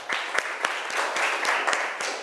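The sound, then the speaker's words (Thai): Students in a school classroom applaud a group's representative, a continuous patter of clapping punctuated by several sharp, regularly spaced louder claps. “ปรบมือให้ตัวแทนจากกลุ่มที่1นะคะ”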